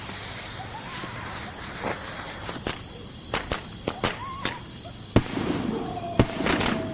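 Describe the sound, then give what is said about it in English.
Fireworks lit with a lighter in a video game crackle and pop in many sharp, irregular bursts, some louder than others, over a steady chirring of insects. “You got some fireworks going in the middle of all this insanity.”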